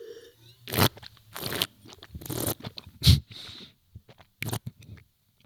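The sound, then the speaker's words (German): Airy slurps come from tasting a young, fresh, unoaked wine, taking generous sips and drawing air through the liquid. Several noisy, hissing bursts are separated by short pauses. “Das hört sich jetzt bestimmt lustig an. Und wahrscheinlich sind jetzt 3/4 deiner Zuhörer gerade ausgestiegen. Das tut mir auch leid. Aber für alle, die noch da sind, dieses Schlürfen, das muss man natürlich nicht im Luxusrestaurant machen.”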